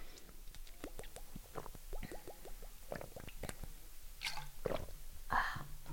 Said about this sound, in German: Oh, ich muss noch einen Schluck trinken, mir ist gerade so warm, ey.